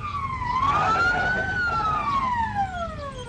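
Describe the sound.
Police car siren in a radio drama, one loud continuous wail that dips, climbs to a peak and then slides steadily down again, heard alone with no voices.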